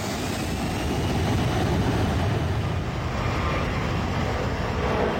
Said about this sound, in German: Ali Akbar macht den Jet bereit, rollt über die Startbahn, beschleunigt und hebt ab.